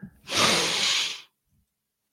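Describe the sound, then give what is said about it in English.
A deep cleansing breath: a single forceful, breathy rush lasts about a second, followed by silence. “Take a deep breath in.”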